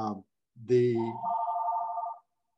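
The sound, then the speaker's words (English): A telephone rings with a steady electronic tone that holds for just over a second, coming right after a short burst of voice, then silence. “sorry about the phone.”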